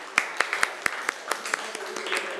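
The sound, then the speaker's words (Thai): Classroom students clap for themselves with a few sharp, scattered claps at first, followed by softer, irregular clapping that thins out. “นักเรียนปรบมือให้ตัวเองหน่อย”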